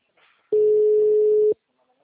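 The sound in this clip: Telephone line tone heard when the line is occupied: one steady, mid-pitched electronic beep lasting about a second, alone after a faint murmur.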